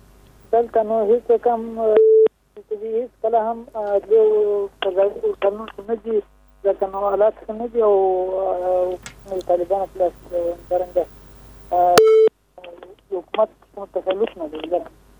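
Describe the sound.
Telephone line tone of a caller on a radio call-in show: two short, steady electronic beeps cut briefly through continuous talk, one near the start and one near the end.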